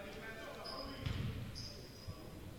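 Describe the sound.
A basketball bouncing on a court during a game involving Stewart's Creek: a few dull, low thuds under voices and background noise, with the loudest thud near the middle.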